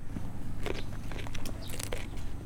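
Crisp crunching bites into a small mini cucumber skewered on a bamboo stick, a few sharp snaps followed by chewing crunches over a low background hum.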